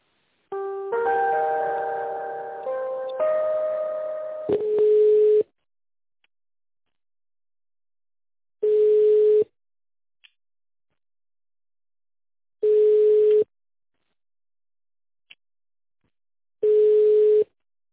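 Telephone tones sound while a call is transferred to a tender department: a short electronic melody, then four even single-pitch beeps about four seconds apart with silence between, with no voices.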